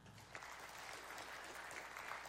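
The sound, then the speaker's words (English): An audience claps in response to a question during a sermon, a steady, dense patter of many hands that is faint but continuous throughout, with no voices over it. “will you clap if you know exactly how World War II ended?”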